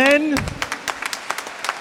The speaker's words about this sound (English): Round of applause for